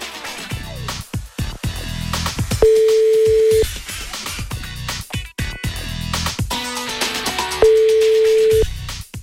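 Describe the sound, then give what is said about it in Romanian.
A telephone ringback tone as a radio station calls a listener: two steady one-second tones sound several seconds apart over loud music. “Iar noi sunăm chiar acum la... Sunăm chiar acum la Corina din Sfântul Gheorghe.”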